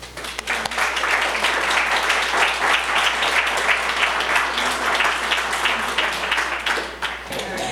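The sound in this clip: Audience applause welcoming a speaker, a dense and steady clapping that holds evenly for several seconds and then thins out near the end.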